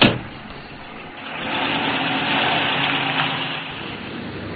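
A car engine runs while the car is being driven, giving a steady, mid-pitched motor hum. It opens with a brief louder onset, dips, then settles into an even, sustained drone with no voices.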